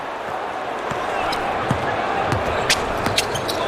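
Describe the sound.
A basketball is dribbled during a game, giving a few sharp bounces over steady background noise and a commentator's voice.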